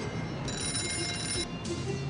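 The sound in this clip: A telephone rings with a high, buzzing electronic trill that lasts about a second, breaks off briefly, then starts again over steady background noise.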